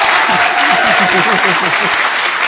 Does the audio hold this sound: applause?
yes

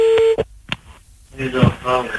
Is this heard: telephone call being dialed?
yes

